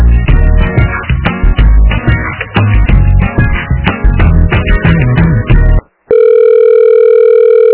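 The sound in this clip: Telephone sounds on an outgoing call: about six seconds of busy, tonal, music-like phone audio, a brief silent gap, then a steady electronic tone that holds to the end.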